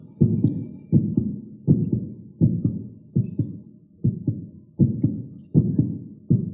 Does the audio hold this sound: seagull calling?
no